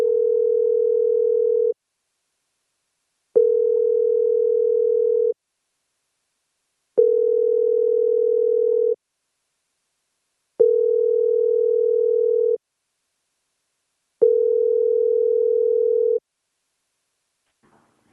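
Telephone ringback tone heard while placing a call: five evenly spaced, steady mid-pitched tones, each about two seconds long and separated by silent gaps of similar length, with no voices.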